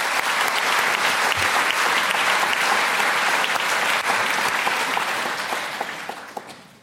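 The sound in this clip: Audience applause greets a speaker at a debate. The dense clapping holds steady and loud for several seconds, then fades out toward the end.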